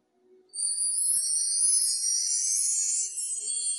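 Mark tree chimes ringing: a bright, high, glittering cascade of tiny metal bars that starts abruptly after a brief near-silence, then sustains as an even shimmer to the end, fairly soft and alone.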